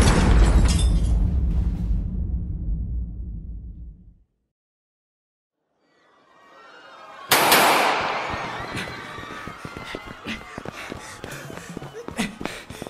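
A bomb hidden in a trash can explodes. A loud noisy burst fades into silence, then a rising rumble breaks into a sharp blast followed by seconds of crackling, scattering debris.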